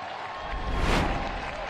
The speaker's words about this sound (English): The crowd roars.